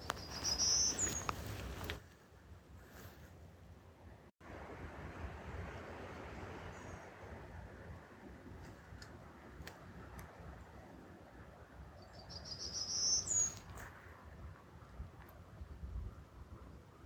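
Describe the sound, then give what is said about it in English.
Two brief, high, buzzy song phrases from a golden-cheeked warbler, one at the start and one near the end, separated by a long stretch of faint, steady wind-like hiss. “I heard several golden-cheeked warblers singing and recorded this bird to share with you.”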